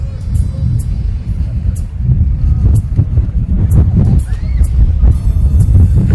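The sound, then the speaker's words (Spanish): Strong wind buffets the microphone outdoors in light drizzle. It makes a loud, steady low rumble with gusty swells that runs through the whole clip. “realmente mucho viento. A estas chicas las empuja el viento y está lloviznando.”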